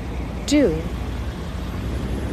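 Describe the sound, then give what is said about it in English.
City street traffic in Philadelphia makes a steady, broad rumble, and a brief high squeal rises and falls near the start. “Yes, there may be some traffic like there is around us, but that's part of the city living.”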